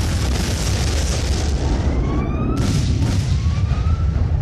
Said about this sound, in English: She has detonated, sir.